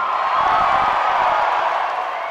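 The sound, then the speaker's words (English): A crowd at America Fest cheers and whoops in a steady, loud roar that eases slightly toward the end. “Kirk attempted to speak, but the crowd wouldn't stop chanting, "Thank you, Charlie."”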